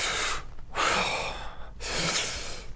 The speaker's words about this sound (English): I mean, really deep breaths, and then really throw it out. You see how you heard a wheeze in me?